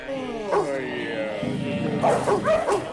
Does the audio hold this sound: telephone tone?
no

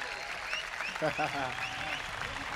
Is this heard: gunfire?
no

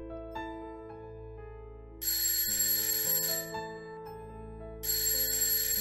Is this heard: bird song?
no

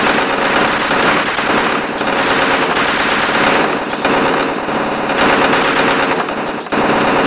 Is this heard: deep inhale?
no

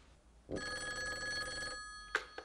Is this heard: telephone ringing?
yes

